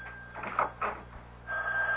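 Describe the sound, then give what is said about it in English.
Telephone ringing beside a bed, a steady electronic ring that stops briefly and then resumes, with a few muffled bumps in between. “Now cut off the phone by the bed. Quick! All right, all right. Damn! Will it never stop?”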